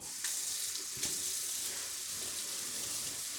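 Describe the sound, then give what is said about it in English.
Canned black beans are rinsed under running water, producing a steady, even rush of water with a couple of brief knocks near the start. “You don't have any control over the final flavor because somebody else decided how much salt to put in your beans. So we rinse it off”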